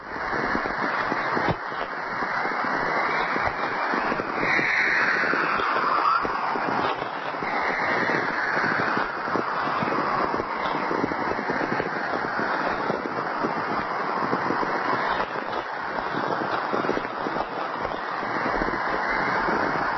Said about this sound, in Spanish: Es el silbido, los cánticos de una aurora boreal.